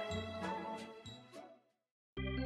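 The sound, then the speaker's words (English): A bell rings in a few quick, faint chiming strikes, each leaving a fading resonant tone. A moment of silence follows, then another clear ring sounds. “Ring the bell, baby.”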